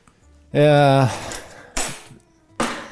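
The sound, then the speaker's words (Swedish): A dish is mixed in a bowl. After a brief voice, two sharp, bright clinks of a utensil knocking against the bowl ring out and decay quickly, with speech in between. “Då ska vi blanda runt här lite.”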